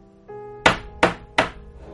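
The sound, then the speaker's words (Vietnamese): Three heavy, evenly spaced bangs on the door of a quiet room. Each is a sharp, loud thud that fades quickly, heard over a soft sustained music bed. “trong phòng yên tĩnh đột nhiên vang lên tiếng đập cửa”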